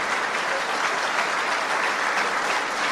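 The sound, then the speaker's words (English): Steady applause from an audience at the CIA during a speech by Donald Trump, even and sustained from start to finish. “Because why in the fuck would the CIA... have any response to that? ...applaud with glee about his war with media?”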